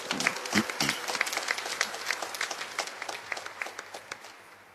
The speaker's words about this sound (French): Voilà, pour... on peut acclamer très fort.